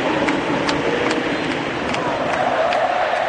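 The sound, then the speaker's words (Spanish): A football stadium crowd roars while play is halted for an injured player, a continuous wash of many voices broken by a string of sharp, regularly repeating accents. “Escuchen el público.”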